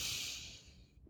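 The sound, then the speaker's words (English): A deep breath drawn in through the nose during a guided breathing exercise: one long, airy inhale lasting about a second, steady and fairly soft, then fading into quiet with no talk. “Take a deep breath in through your nose. Hold. Big exhale. Deep breath in.”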